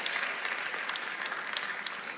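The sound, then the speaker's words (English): Audience clapping, faint but steady: a thick patter of many hands runs evenly for about two seconds, with no voices over it. “I know the claps are getting low because y'all are writing”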